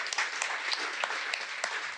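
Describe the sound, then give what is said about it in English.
Applause from an audience at a panel-style talk, steady and dense, with sharper individual claps standing out now and then over about two seconds. “Give them a big round of applause, ladies and gentlemen.”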